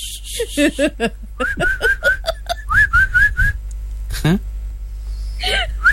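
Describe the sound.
A person whistles a run of short, sharp, high notes, most repeated at the same pitch in a quick, steady rhythm, with a few lower rising chirps at the start and near the end.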